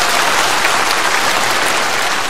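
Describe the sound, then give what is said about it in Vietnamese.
Audience applause offered in thanks to Avalokiteshvara Bodhisattva: loud, dense and continuous clapping that holds an even level throughout. “Vì vậy một lần nữa, một tràng pháo tay để cảm ơn Quan Thế Âm Bồ Tát.”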